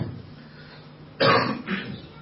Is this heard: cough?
yes